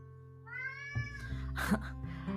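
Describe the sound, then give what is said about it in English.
A house cat meowing: one drawn-out, faint meow followed by a few shorter, softer sounds, with no talk. “Sorry, that's my cat meowing. I don't know if you can hear it.”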